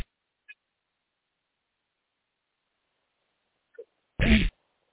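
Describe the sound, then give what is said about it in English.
One short, sharp sneeze comes over a phone line after near silence broken only by a couple of faint clicks. “I don't know what that was. Somebody sneezing.”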